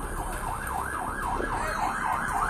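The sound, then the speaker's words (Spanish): A fire engine siren as firefighters arrive to put out a fire a couple of blocks from a car crash: a steady wail that rises and falls over and over, with a low traffic rumble beneath. “Y todos se distrajeron cuando escucharon que al fin llegaron los bomberos”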